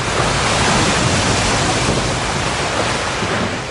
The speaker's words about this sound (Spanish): Los pescadores bajaron las velas. Fue entonces cuando la primera ola inundó el bote.